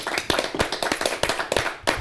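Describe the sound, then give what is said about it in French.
Applause for a school principal: many sharp, irregular hand claps overlapping in a loose, uneven rhythm, fairly loud and with no voices. “Je vous demande de lui faire un maximum de bruit, le proviseur.”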